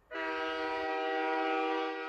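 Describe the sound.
A steam train whistle sounds as one sustained, harmonic-rich blast. It starts sharply just after the beginning and holds steady and loud for about two seconds, with a low rumble under its first part.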